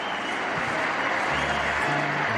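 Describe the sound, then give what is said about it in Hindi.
Loud crowd applause welcoming Amitabh Bachchan back onto a stage, a thick, continuous clatter of clapping that holds at a steady level throughout. “हो जाइए तैयार एक बार फिर जोरदार तालियों से स्वागत करने के लिए, अमिताभ बच्चन फिर एक बार।”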